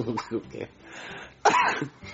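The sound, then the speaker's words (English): A single short, harsh cough bursts out amid people talking casually. “I coughed.”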